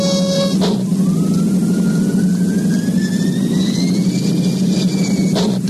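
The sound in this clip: Spacecraft reactors fire for a blast off, a loud, constant engine-like roar with a low steady drone underneath and a thin high-pitched whine that rises gradually through most of the sound.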